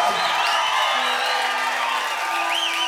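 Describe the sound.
Australian audience members cheer and whoop at a live music show: dense, loud crowd noise with a few high, rising whoops breaking above it.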